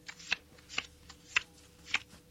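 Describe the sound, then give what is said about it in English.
Card-dealing sound effects in a video card game dealt from a pop-music deck: four crisp, short swishing snaps spaced unevenly, each with a bright papery edge, over a faint low hum. “I'll deal you five cards each from the Pop Legends pack.”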